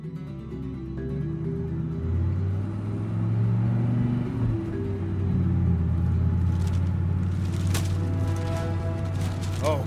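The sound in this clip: A car drives down a road with a continuous low engine rumble and steady drone, joined by a few higher clicks and rattles near the end.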